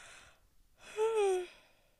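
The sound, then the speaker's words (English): A person yawns: a faint, breathy intake, a short pause, then a drawn-out voiced groan that slides downward in pitch and fades away. “I really need to stop yawning, it's very unprofessional.”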